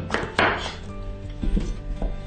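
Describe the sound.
Knife chopping parsley into cubes on a cutting board: a few dull, woody thunks at uneven intervals, fairly quiet overall.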